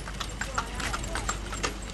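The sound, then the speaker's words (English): Donkey hooves clop in a steady ambling rhythm as the animal pulls a wooden cart steered by a child. The crisp hoof strikes repeat over a constant low background rumble. “A child steering a wooden cart pulled by a donkey ambles by Sultan's shop.”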